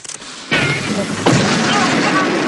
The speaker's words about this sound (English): But there's a flash of white light and he explodes, leaving behind a charred remnant of his former self. A moment later, and he explodes again.